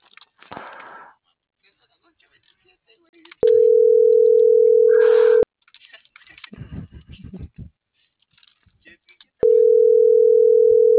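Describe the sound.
Telephone ringback tone from an unanswered call to a neighbour: two long, steady, mid-pitched tones separated by a pause, with bits of talking and handling noise before and between them.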